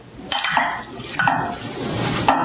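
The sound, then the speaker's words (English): Stirring of a raw applesauce mixture: three soft scraping strokes, each with a brief brighter clink of the utensil, over a wet, mushy swirl. The strokes fall at roughly even intervals and no one speaks. “Okay, so you just kind of stir that together a little bit.”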